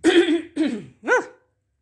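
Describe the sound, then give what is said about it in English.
Phlegmy throat clearing in three rasping bursts: two rough, gravelly pushes, then a shorter, more voiced, hum-like clearing, loud and alone. “sorry. It was like that little green phlegm guy on that Mucinex commercial.”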